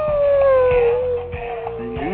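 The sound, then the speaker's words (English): A dog howls in one long, loud, wavering note that slowly sinks in pitch, then softens before a shorter rising howl near the end. “Oh, where's the dog at?”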